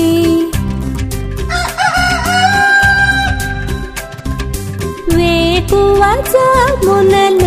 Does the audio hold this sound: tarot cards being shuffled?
no